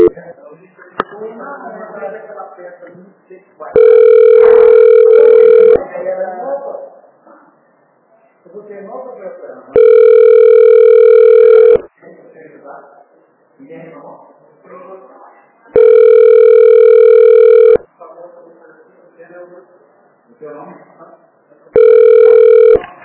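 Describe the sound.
A telephone ringing tone plays while a call is transferred. Four long, steady tone bursts of about two seconds each repeat at even intervals, with talking in the gaps between them.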